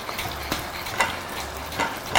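Food frying in hot oil gives a steady, faint sizzle dotted with a few sharp crackles and pops.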